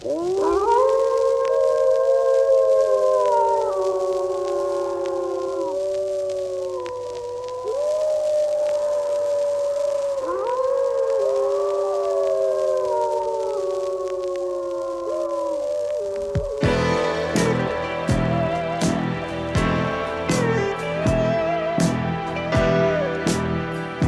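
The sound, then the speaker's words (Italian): Wolves howl in the Apennines: long, mournful gliding tones rise and fall for about sixteen seconds, then give way to music with a steady, regular beat. “Sugli Appennini, specie d'inverno quando scende a valle spinto dalla fame, si incontra ancora qualche ultimo lupo e si sente il suo ululato lamentoso.”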